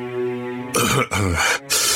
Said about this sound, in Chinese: 他干咳了两声道